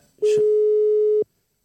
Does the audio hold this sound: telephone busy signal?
yes